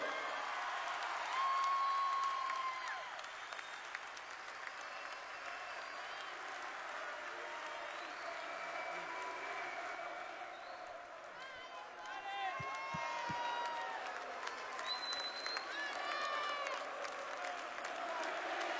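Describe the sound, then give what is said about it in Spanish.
Audience applause for a performer just introduced as a genius. The clapping is soft and sustained, dips briefly midway and then swells again, with voices rising over the crowd. “Fuerte ese aplauso”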